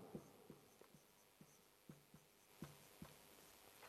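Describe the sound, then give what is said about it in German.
Pen writing down a note: faint, short scratchy strokes and light taps in an irregular rhythm, many small marks across a few seconds in near silence. “die Punkte sind alle sehr eng miteinander verknüpft, deswegen schreibe ich den nächsten direkt auch mal auf.”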